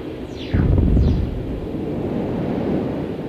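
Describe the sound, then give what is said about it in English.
An auto-guided aqua rocket fires with an abrupt, low, rumbling whoosh. Two falling, whistling sweeps ride over it, then a broad steady roar carries on to the end. “Press now for auto-guided aqua rocket. Red? Now. Fire now. Fire now. Fire now. Rocket away.”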